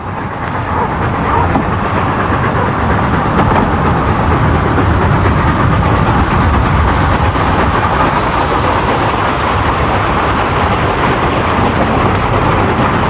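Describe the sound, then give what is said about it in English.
A train passing along a rural path by a small stone outhouse gives off a loud, continuous rumbling roar that holds steady throughout without breaks. “Meanwhile, a peasant man is carrying a lantern along a path, walking to a small stone building and going inside as the train passes.”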